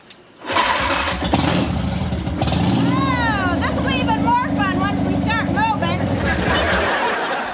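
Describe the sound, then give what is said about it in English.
A motorcycle engine catches after about half a second, then runs steadily and loudly, somewhat quieter than it had been the day before, while voices talk over its continuous mid-pitched drone. “Something's wrong with the bike. What are you talking about? It sounds great. It's not nearly as noisy as it was yesterday.”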